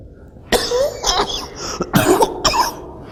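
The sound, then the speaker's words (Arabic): A few harsh coughs from someone with a cold, loud bursts coming in quick succession with short gaps between them and no talking. “أنا عندي برد، مش شرقان، أنا بردان عيان، هذه كحة برد وليست شرق.”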